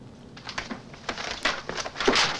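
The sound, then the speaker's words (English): Pages of printed sheet music are torn and crumpled in a quiet, irregular series of dry rips and crinkles that grow slightly louder and denser toward the end. “runs over to the pages of his symphony and begins to tear them up, one by one.”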